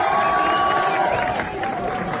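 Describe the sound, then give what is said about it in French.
Crowd cheering and clapping to welcome the president of a French air guitar federation at a live event, loud and steady throughout with a slight dip in volume partway through. “sans plus tarder, des applaudissements pour Rita Cadillac”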